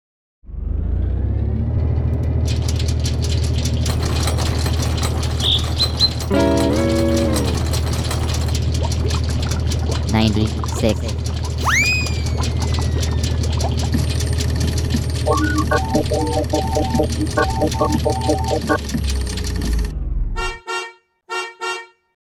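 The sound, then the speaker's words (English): A long synthetic random number generator sound effect: a heavy low drone with whirring, honking and ratcheting mechanical noises, rising chirps and patterned electronic beeps, ending in several short bursts before cutting off. “let's now run the random number generator.”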